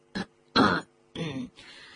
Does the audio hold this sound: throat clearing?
yes